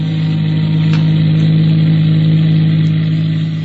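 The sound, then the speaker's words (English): Steady engine drone of a car motoring along a winding state road outside Charlottesville, Virginia, holding a loud, even hum throughout with no pauses or changes in pitch, and no voices. “They're motoring, of course.”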